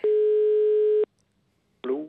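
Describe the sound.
A single steady telephone tone lasting about a second, heard while calling a grandfather. It is followed by a short silence, and then a voice begins.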